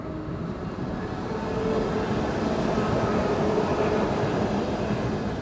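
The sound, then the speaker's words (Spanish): A commuter train passes about 30 metres away, producing a steady, broad rumble that swells slightly partway through and then holds at a constant level. “A 30 metros acaba de pasar un tren de cercanías.”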